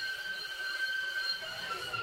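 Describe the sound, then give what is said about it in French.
Metro train running over old, worn tracks and struggling through curves: a steady, dense rolling rumble with a thin, sustained high-pitched squeal riding on top throughout, no voices. “Le métro lui-même est assez récent, mais je pense que les voies ont l'air assez anciennes. Bon, c'est comme si le métro il avait du mal des fois à passer dans les virages.”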